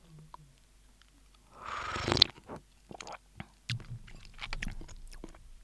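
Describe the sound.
Someone eats a Japanese hot pot of chicken, mushrooms, leek, lettuce, cherry tomatoes and mizuna in broth. A crisp crunchy bite is followed by a series of soft, irregular chewing sounds.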